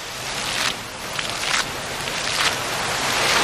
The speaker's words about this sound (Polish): Wodę w fontannach chyba dała specjalnie dla Państwa